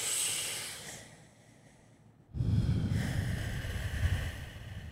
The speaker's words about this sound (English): Okay, so breathe in.